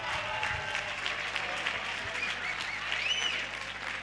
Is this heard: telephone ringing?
no